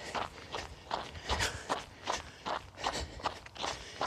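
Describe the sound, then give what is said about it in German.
Footsteps of someone jogging on a forest fitness trail: regular, evenly spaced footfalls in a steady running rhythm, soft and fairly quiet, with no voices. “Also jetzt macht es gerade Spass zum Joggerlen.”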